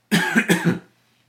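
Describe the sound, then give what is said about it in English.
A person coughs in one short, harsh burst of several rapid, chesty pulses lasting under a second, loud and alone with no speech. “I can't stand being on camera and coughing. Again, I apologize.”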